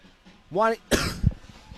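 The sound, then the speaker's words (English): A sports commentator coughs once, sharp and loud, after a short voiced vocal sound. A smaller throaty burst follows. “It's a live broadcast. Sometimes you got to cough.”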